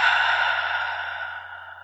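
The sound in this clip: A long, steady breath out, part of a slow inhale-and-exhale, sounds as a breathy whoosh that gradually fades, alone and without speech.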